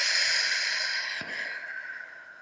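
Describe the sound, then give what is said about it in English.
A slow breath drawn in through the nose and let out through the mouth in a guided breathing exercise, a continuous soft airy hiss with a brief break partway through, and no talking. “let's take a breath in through the nose, out through the mouth.”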